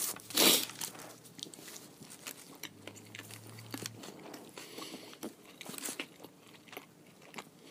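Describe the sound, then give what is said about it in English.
A bite into an Impossible Whopper plant-based burger from Burger King gives one loud, crunchy crunch near the start, followed by many quieter, irregular chewing and crinkling sounds. “Let's try another bite.”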